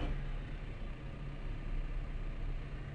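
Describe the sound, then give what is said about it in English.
Steady roar of a car engine as its worn tires spin out without traction, continuous and even throughout. “He needs new fucking tires is what he needs. He's just spinning out. He's just spinning out. He's just spinning out.”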